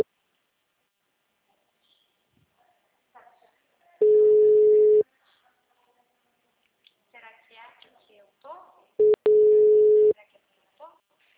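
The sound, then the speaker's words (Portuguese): Ringback tone of an outgoing phone call: two steady, mid-pitched tone bursts about a second long, several seconds apart, with faint voices talking in between. “Tem que mexer. Tá chamando. Ah, tá chamando.”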